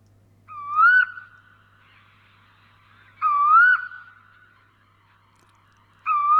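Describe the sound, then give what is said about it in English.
Eastern koel, also called common koel, calling: three loud, rising whistled calls spaced a few seconds apart, each clear and alone over a quiet background with a faint low hum. “what you are hearing is actually the sound of a bird called the common coal or eastern coal.”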